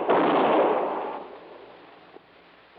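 A gunshot in a radio drama set in a warehouse: one loud, booming report with a long, rumbling decay, followed by a couple of faint clicks.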